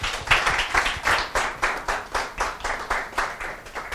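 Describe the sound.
Audience applause welcoming a lecturer at a talk: steady, fairly even clapping with a regular pulsing rhythm that continues throughout, with no voices over it.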